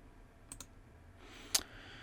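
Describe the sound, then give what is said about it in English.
Faint computer keyboard key clicks as a password is entered at a Google account sign-in: two quick taps close together, a pause, then one louder click. “Go ahead and enter your password.”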